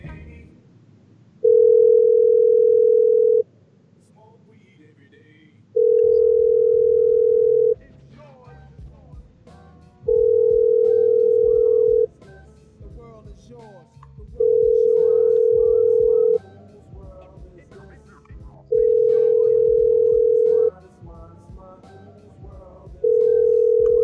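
A telephone ringback tone repeats as a call rings unanswered: about five long, steady mid-pitched beeps of roughly two seconds each, separated by equal pauses, with a sixth starting at the end, over a low background hum.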